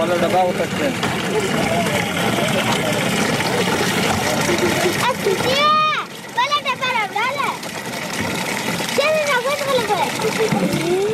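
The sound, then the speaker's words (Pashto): Water splashes steadily as children fill cans at a water tank built by an aid organization in Kandahar's ninth district. Children's voices rise over the splashing in the second half. “دلته ماشومان د اوبو له هغې ټانکۍ څخه ډبې ډکوي چې په سیمه کې د یوې مرستندوی موسسې لخوا جوړه شوې ده.”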